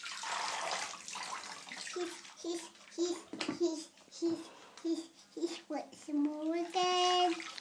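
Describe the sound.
Water sloshing and splashing in a bathtub as a child is washed, with a child babbling and voices talking throughout over the uneven watery sounds.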